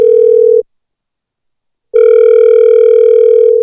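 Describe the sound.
Telephone call tone, a loud, steady, pure buzzing tone that breaks off into silence for over a second, then returns and holds unchanged.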